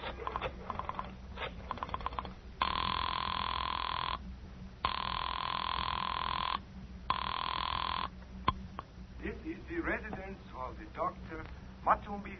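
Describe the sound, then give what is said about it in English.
A telephone ringing after a number is dialed: three long ring bursts separated by short pauses, with people talking before and after the rings. “I dug through the telephone book and I found Dr. Matson B. Forsythe's number and I dialed it.”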